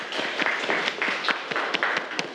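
Students applauding in a classroom biology lesson, a faint, steady patter of many hand claps with a few sharper claps poking out.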